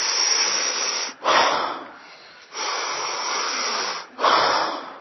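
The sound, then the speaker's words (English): Airy, hissing breaths come from a breathing exercise in which an extended inhale is followed by an exhale. Long, steady breath sounds are separated by brief quiet gaps, with no talk. “I'm adding a little extra stretch to the end of the inhale, and then I exhale.”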